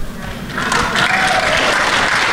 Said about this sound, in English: Look at that applause.